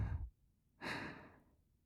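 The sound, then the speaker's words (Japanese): A slow, deep breath taken during a guided relaxation exercise: a brief low puff, a pause, then one long, soft, airy breath that fades gradually. It is quiet and there is no talk. “それでは、少し深呼吸をしましょうか。はい。ゆっくりと息を吸って、”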